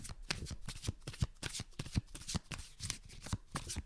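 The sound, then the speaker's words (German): A deck of cards is shuffled, a quick run of many crisp papery riffles and soft slaps, fairly quiet and steady throughout. “Ich bin so schlecht im Mischen.”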